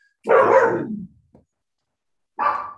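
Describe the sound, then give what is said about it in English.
Pet dogs bark at the neighbouring dogs in an ongoing squabble: two loud, rough barks, the first drawn out and the second shorter, with a brief faint sound between them and no talk. “Sorry for the barking. my dogs are in a perpetual disagreement with the next door dogs.”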